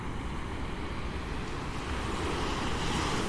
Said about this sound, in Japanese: いっぱい波の音を聞きに来てくれている